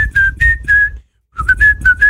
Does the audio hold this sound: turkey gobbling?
no